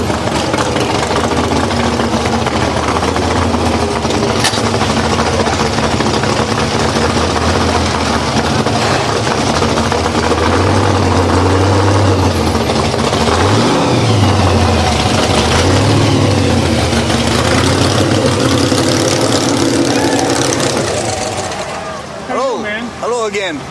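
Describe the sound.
An old car's engine idles with a steady, low, rough rumble that continues unbroken and fades near the end.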